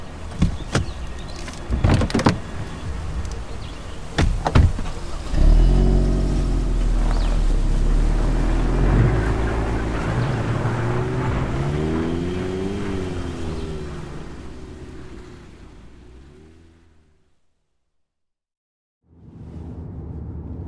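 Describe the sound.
Car driving on the road: a few sharp clicks and knocks at first, then a loud engine hum whose tone rises and falls as it runs, fading to silence before resuming near the end.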